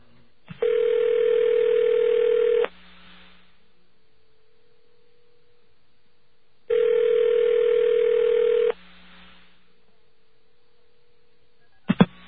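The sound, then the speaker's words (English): Telephone ringback on a call to a payphone number: two long, steady, buzzy ring tones, each about two seconds, separated by a long quiet gap over faint line hum. A sharp click at the very end marks the computer picking up. “You should hear a few rings and a computer pickup.”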